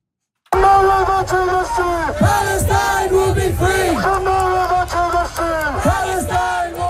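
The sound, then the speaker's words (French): A large pro-Palestinian demonstration in London chants and shouts, with many voices in loud rhythmic bursts whose calls drop in pitch. The chanting begins abruptly after a short silence and continues steadily. “On entend une manifestation pro-palestinienne qui a rassemblé de nombreux protestataires.”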